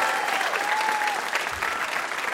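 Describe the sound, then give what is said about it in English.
Audience applause greets a VIP guest on a radio game show, a steady, dense clapping that holds at an even level for the whole stretch. “How about a hand for our VIP, Adam Rappaport?”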